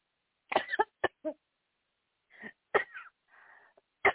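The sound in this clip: Coughing and choking from a person speaking about a Huntington's disability claim: a series of harsh, irregular bursts separated by short pauses, with a wheezy, strained breath partway through.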